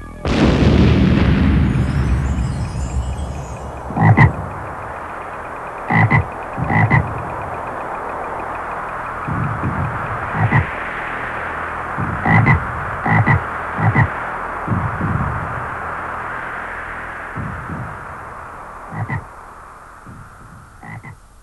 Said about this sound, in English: Wing of fly and leg of dog, turn this woman into a frog.